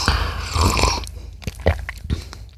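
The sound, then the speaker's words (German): Someone takes a loud slurping sip of hot coffee mixed with olive oil, a long airy sucking noise followed by a few short wet mouth clicks and gulps. “Ich sehe es jetzt noch nicht so ganz. Ich probiere es mal ganz kurz. Angeblich soll dieses Olivenöl super mit Kaffee harmonieren.”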